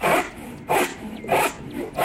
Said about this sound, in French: Ouais, c'est une scie. C'est une scie à bois, oui.